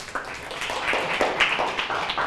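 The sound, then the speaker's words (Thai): A class of students applauds a group that has just presented, producing fairly faint, scattered and uneven clapping in a short burst. “ถูกต้องนะครับปรบมือให้ทั้งกลุ่มที่นำเสนอและผู้ตอบด้วยนะครับ”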